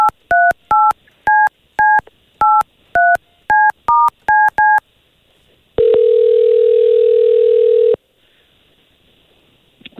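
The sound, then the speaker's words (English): A telephone number is dialed on a touch-tone keypad: eleven quick two-tone beeps in an uneven rhythm. After a short pause comes one long, steady ring tone, then near silence. “I have your mom's number here. We're going to call her, okay?”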